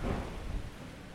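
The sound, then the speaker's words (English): Dust storm wind sweeps over an outdoor class as a faint, steady, rushing roar with no clear gusts. “I think we're heading for a sandstorm here. Dust storm.”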